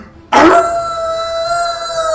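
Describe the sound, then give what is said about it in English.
A terrifying howl bursts in suddenly and loud, then holds as a long, steady, tonal wail that stays strong without a break for about two seconds. “As you hear this terrifying howl,”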